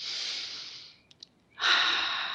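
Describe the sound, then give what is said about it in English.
Two long, deep breaths during a guided meditation, each a steady, airy hiss, separated by a short pause with a couple of small mouth clicks. “So close your eyes. A couple of deep breaths.”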